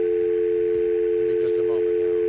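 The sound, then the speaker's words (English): A telephone tone sounds while a call is placed to a BlackBerry phone, holding one steady, unbroken pitch for the whole clip. “Let me call my BlackBerry. I think you should.”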